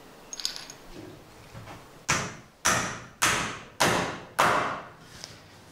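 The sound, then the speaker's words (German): Five sharp, evenly spaced knocks ring out as a clamp is fitted onto a wooden ladder. Each knock decays quickly, and faint rustling and small clinks come before them. “Als erstes machen wir jetzt die Zwinge an die Leiter. Die verhindert, dass das Holz ausreißt, wenn ich die Spitze reinmache.”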